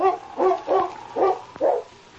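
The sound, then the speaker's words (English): Several quick, mid-pitched dog barks come in an uneven rhythm, loud and clear with short gaps between them, as the dog pins down a man during an arrest. There is no talking. “Good dog.”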